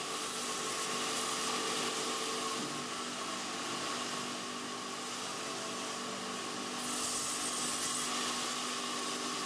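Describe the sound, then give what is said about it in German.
Seasoned wood being sawn into blocks for making wooden clogs: a steady, loud, rasping machine drone that holds nearly unchanged throughout, dipping slightly midway before swelling again. “Zunächst müssen aus dem gut abgelagerten Holz Stücke in die richtige Größe und Form gesägt werden.”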